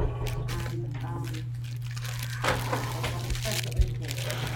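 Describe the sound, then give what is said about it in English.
Wrapping paper crinkles and tears faintly as gifts are unwrapped, a steady rustling texture with occasional sharper crackles over a constant low hum. “I have varying gifts, and so each one of those is a gift for each one of them, and I'd like you to unwrap them”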